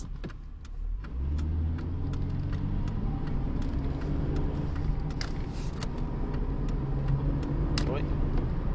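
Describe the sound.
A car's engine and road rumble hold steady as the car merges into traffic on a road. Regular ticking clicks run through it, and a voice talks over the drone.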